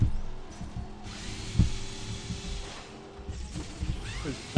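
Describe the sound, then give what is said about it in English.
A power tool removes the exterior bolts of a gaming system under repair, giving a steady, faint whirring buzz that stops and restarts, with a few sharp clicks between runs. “So we're going to take out the exterior bolts.”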